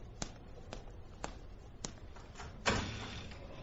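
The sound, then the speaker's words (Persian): A door being opened: a few sharp, evenly spaced taps, then a louder clunk with a short rustling tail, faint and without voices. “وحشت نکن، میرم درو باز کنم.”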